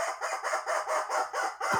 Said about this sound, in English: And the rubber chicken says,